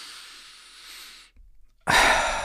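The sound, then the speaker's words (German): Deep breathing, in through the nose and out through the mouth: a soft, steady inhale hiss, a brief pause, then a louder, rushing exhale. “Ich mache das jetzt, was mir gerade ganz gut tut, aber nicht, weil es unbedingt sein muss. Einmal noch, weil es so schön ist. Ich atme durch die Nase ein und durch den Mund aus.”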